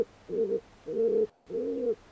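Feral pigeon cooing: three low, throaty coos, each about half a second long, evenly spaced and heard alone.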